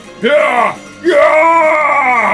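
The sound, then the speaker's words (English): A voice imitates an orc screaming in pain: two loud, drawn-out, harmonically rich cries, a shorter one and then, after a brief pause, a longer sustained one. “The orc let out a scream, but I showed him no mercy.”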